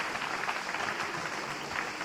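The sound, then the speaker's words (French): An audience claps at the close of a spoken talk programme, a continuous, even wash of applause at moderate volume lasting about two seconds. “Oui, applaudissements.”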